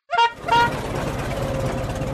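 An old, rattly car driving away from a farm gives two short horn toots, then a steady, broad engine rumble that carries on to the end.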